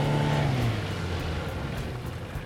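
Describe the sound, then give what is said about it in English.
A speedboat engine in Florida roars loudly, its low tone dropping in pitch as it eases back, then settles into a steady, rushing drone. “Could you just idle your speedboat for a second?”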